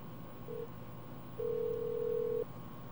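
Telephone line tones as a call is put through on a radio call-in: a brief beep, a short gap, then a longer steady tone of about a second at the same mid pitch, over low hiss.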